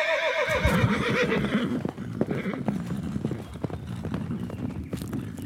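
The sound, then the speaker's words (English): Horse hooves clip-clop as a king's army rides away on horseback, with a neigh at the start followed by a steady, busy patter of many hoofbeats that carries on at an even level. “And with that, the king and his army rode away.”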